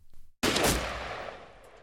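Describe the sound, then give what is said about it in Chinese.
A single gunshot fired at a fallen wolf during a hunt: one loud, sharp crack that bursts out of near silence and trails off in a long, slowly fading tail. “昔日的射手上前一步，冲着倒下的黑影又补了一枪。”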